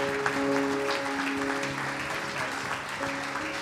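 A church audience applauding to welcome the preacher: a steady, dense wash of clapping that holds an even level throughout, with sustained tones beneath it.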